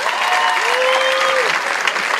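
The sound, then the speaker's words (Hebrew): Audience applause at a modern poetry reading: dense, steady clapping that holds at an even, fairly loud level for the whole two seconds with no break. “השיר נקרא, רבותיי, איפה כפיים?”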